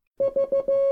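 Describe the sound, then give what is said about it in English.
Morse code letter V sounded as a clean mid-pitched beeping tone: three short beeps followed by one longer beep, loud and alone. “In Morse code, V is dot dot dot dash, or short short short long, which sounds like this.”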